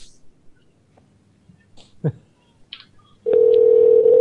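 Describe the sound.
A telephone dial tone follows a hung-up call. A few faint clicks and small noises come first, then a steady, unbroken mid-pitched hum that holds loudly to the end.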